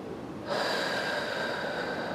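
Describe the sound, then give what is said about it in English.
A deep breath drawn in through the nose during a guided breathing exercise, beginning after a short quiet moment and continuing as a steady, soft, breathy hiss to the end. “And inhale.”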